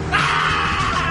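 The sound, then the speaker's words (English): A goat screams in one long, harsh and strained cry, loud and unbroken, much like a human yell. “Sorry, guys, somebody emailed me a video of a sheep screaming.”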